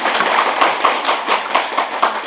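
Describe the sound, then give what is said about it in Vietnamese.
Audience applause at a Buddhist sutra lecture, a dense burst of hand clapping with many overlapping claps and some sharper accents, sustained and fairly loud throughout with no talking. “Giỏi, cho chàng pháo tay chính xác luôn.”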